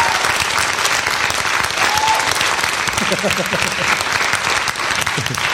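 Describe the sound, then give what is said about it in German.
An audience applauds, a loud, dense and steady clapping that fills the whole clip without pause. “Und jetzt noch euer Applaus für die Frage von Niklas P.”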